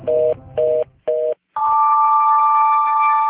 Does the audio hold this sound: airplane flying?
no

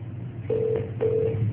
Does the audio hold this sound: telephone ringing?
yes

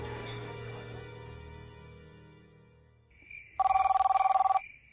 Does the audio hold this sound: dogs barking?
no

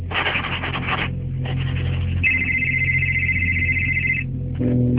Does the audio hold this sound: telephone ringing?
yes

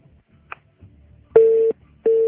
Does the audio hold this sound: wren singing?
no

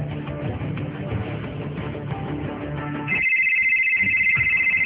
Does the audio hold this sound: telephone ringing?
yes

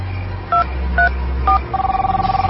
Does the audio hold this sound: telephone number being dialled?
yes

